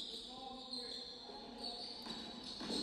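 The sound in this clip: A basketball is dribbled during a game, with faint, repeated bounces beneath people talking.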